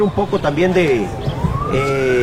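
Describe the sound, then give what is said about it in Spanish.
Sirens wail in the background outside a high-performance sports training center in Costa Rica, with one rising tone climbing steadily under a person talking. “de ahí escucho sirenas al fondo”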